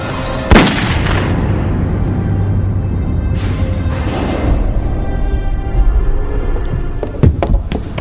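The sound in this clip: A gunshot fired into a person's mouth, one sharp, loud crack near the start trailing into a dull rumble, then a few smaller sharp cracks near the end.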